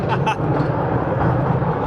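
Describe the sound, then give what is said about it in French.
A noisy vehicle ride rolls through underground galleries with a loud, continuous rumble and rattle. People talk over the din. “Ouh, c'est parti. Bip, bip. Eh ben, ça roule. Ah ouais, effectivement, c'est bruyant, eh. Ouais, c'est très bruyant.”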